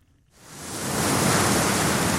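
Sea waves wash below an Irish clifftop on the North Atlantic. A broad surf roar swells in from near silence, then holds as a steady, even hiss with no voices.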